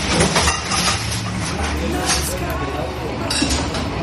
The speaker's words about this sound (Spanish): Este es el sonido de un horno, ¿eh? De un horno de pan, de una panadería, la de Eduardo